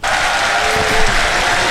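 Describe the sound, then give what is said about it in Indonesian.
An audience clapping at a singing event: dense, loud, steady applause that fills the whole short stretch. “Okey, sabar dulu awak eh. Ha. Kita tepuk tangan dulu.”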